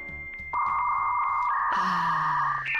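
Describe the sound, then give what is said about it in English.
Dial-up 56K modem connecting to the internet over a telephone line: a few short blips give way to a long, steady electronic whistle that shifts to a brighter, layered tone partway through, ending with a higher chirp. “That's the sound of a computer trying to connect to the internet over a telephone line.”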